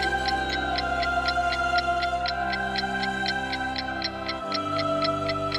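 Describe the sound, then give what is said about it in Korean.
A palace clock in a fairy tale ticks in fast, perfectly even bright clicks over a sustained ringing tone, loud and unbroken throughout, with no voices. “다시 시계가 울리고 이번에는 10명의 조언가들이 등장했어요.”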